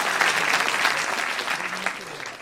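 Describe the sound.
An audience applauding: dense, steady clapping that holds at an even loudness for the whole stretch, with no clear gaps.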